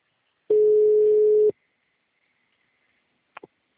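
A telephone tone while a call is placed: a single steady, mid-pitched tone of about one second, then silence and two brief clicks on the line.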